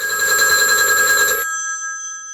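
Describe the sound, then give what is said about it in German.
A telephone bell rings in one continuous, loud, bright metallic peal, then cuts off and leaves a fading ring. “Charles de Gaulle ruft von London aus Premierminister Paul Reynaud in Bordeaux an und liest ihm am Telefon den Text vor”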